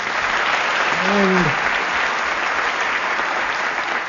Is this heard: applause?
yes